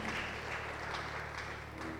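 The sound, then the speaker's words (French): Faint, hesitant clapping from a church audience, a few soft scattered bursts of applause over a low background hum, never swelling into full applause. “Alors pourquoi tu acclames timidement comme ça? Est-ce qu'on peut bien acclamer notre Dieu?”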